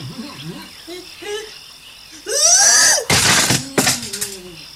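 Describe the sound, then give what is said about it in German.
A staged fall: a loud, sweeping scream gives way to a few heavy, harsh crashing impacts, after a quieter stretch of voice-like sounds. “Aua. Nun bin ich runtergefallen.”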